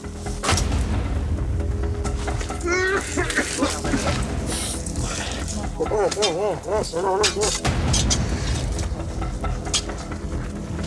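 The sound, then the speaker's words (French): Heavy metal crowbars strike volcanic rock as about ten miners break out sulfur blocks, giving many loud, dense impacts and crashes in a rough, continuous rhythm, with voices calling out at times. “Une dizaine de mineurs attaquent le volcan à coups de barre à mine pour lui arracher des blocs de soufre.”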